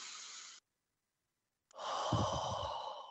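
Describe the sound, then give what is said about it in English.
Deep breaths taken as a calming exercise: a breathy rush of air, a silent pause, then a longer, fuller breath with a low rumbling undertone, all soft and without speech. “setting an alarm on your phone for 3 times throughout the day to take 3 deep breaths”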